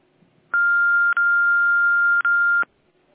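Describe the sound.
Electronic telephone tones sound while a call is transferred: a steady, fairly high beep runs for about two seconds, broken by two brief gaps into three back-to-back segments, with nothing else heard.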